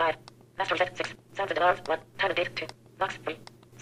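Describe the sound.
A mobile phone's synthetic talking voice set to its fastest speech rate, rattling off short, clipped bursts of rapid speech over a steady low hum.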